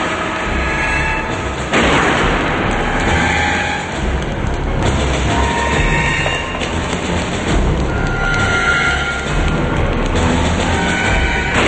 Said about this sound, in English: The man from the mall shoots at them, and they run the other way.